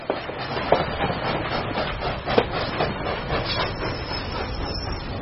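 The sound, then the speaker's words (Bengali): A train rolls into a major railway station, its wheels giving a steady rumbling clatter with irregular knocks and rattles and no clear pauses. “Howrah স্টেশনে ট্রেনটা এসে দাঁড়াতেই”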